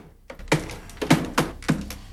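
Tapping on a computer keyboard and karate-chopping the top of a computer monitor make a few sharp, hollow knocks and thumps in an uneven rhythm, moderately loud, with quieter taps between them.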